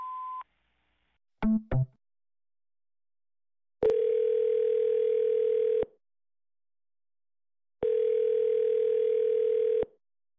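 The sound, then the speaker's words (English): Answering machine tones: a short high beep opens, followed by two quick blips, then two long, steady buzzing tones of about two seconds each, separated by silence. “Leave a message after the tone.”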